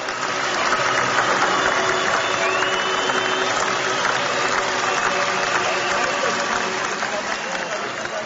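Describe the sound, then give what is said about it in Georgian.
A crowd at the national stadium gives an ovation to greet singer Gia Gachechiladze at an opposition protest rally, a dense, loud and unbroken roar of applause and cheering that holds steady throughout. “ასეთი ოვაციები ეროვნულ სტადიონზე იქ შეკრებილების მთავარი გმირის, მომღერალ გია გაჩეჩილაძის გამოჩენას ახდა.”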